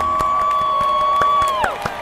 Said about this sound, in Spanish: El público estalló en aplausos.